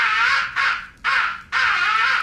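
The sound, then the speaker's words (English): Crow roost calls from a crow-calling record: four long, harsh, raspy caws run back to back with only the briefest gaps, loud and steady with no voices. “The fifth and final essential call is the roost call. It is a deadly call. Use it when you're in your roost or near your roost in the late evening and crows are coming in.”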